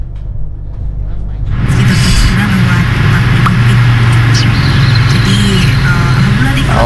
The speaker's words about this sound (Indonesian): waktu proses evakuasi di Jurang Susu, antrian kendaraan juga makin mengular nih di sana